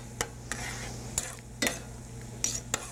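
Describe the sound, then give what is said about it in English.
A utensil stirs flaming dessert sauce in a pan. It scrapes and clicks sharply against the metal about six times over a low, steady sizzle, with no voices. “Stir it around some in order to extinguish the flames eventually.”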